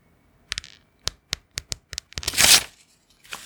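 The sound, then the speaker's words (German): Sheets of paper being torn while tidying up: several short, crisp rips in quick succession, then a longer, louder tearing sound, and one last brief rip after a pause, with no talking. “Oh, Blätter zerreißen.”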